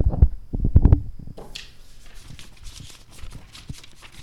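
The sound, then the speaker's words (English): Paper rustling, made to imitate a noise heard on a paper mountain: a few soft low thumps open, then a continuous crinkly, papery rustle of fluctuating loudness fills the rest. “And as they were going, they heard little rustling sounds like this.”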